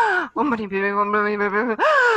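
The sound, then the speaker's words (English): A voice demonstrates chanting with heavy breathing: a sharp audible breath, then a long steady tone held on one pitch, another forceful breath, and a loud tone that rises at the end. “So if you combine chanting with heavy breathing, as most people do, if you do something like this,”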